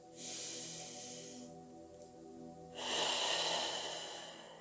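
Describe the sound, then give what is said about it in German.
One slow, deep breath in and out by a person: a soft, airy inhale, a brief pause, then a longer, louder, hissing exhale that slowly fades. “Und dann atme mal tief ein und aus.”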